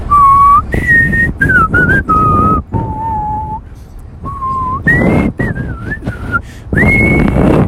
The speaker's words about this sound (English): was just whistling a jolly tune